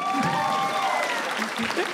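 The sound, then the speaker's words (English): A live audience applauds after a story is told, with a steady dense patter of clapping throughout and voices audible over it. “Well, everyone, give it up for that story.”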